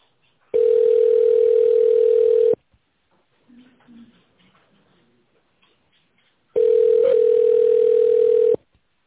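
Telephone line tone while a call is transferred to an operator: two long, steady mid-pitched tones, each about two seconds, separated by a long quiet pause with faint low sounds.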